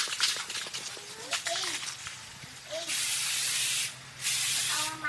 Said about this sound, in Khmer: អ្នកស្រីយកកំប៉ុងថ្នាំពណ៌ខ្មៅបាញ់ទៅលើដង3ដែលព្យួរជាមួយនឹងខ្សែពណ៌លឿង